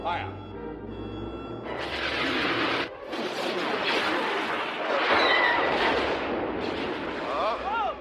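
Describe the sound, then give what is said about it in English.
A sci-fi Death Star blast: a roaring, crackling explosion that swells and rumbles on for several seconds after a quieter opening, with brief breaks in the roar. “That blast came from the Death Star. That thing's operational.”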